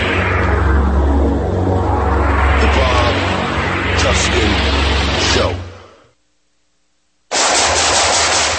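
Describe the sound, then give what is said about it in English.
Loud, sustained automatic gunfire with rumbling bursts cuts abruptly to silence, then resumes just as suddenly. “Nice shooting.”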